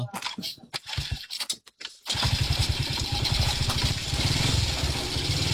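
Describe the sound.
A motorcycle engine starting: a few scratchy, uneven cranking bursts, then the engine catches into a loud, steady, rumbling idle that carries through to the end.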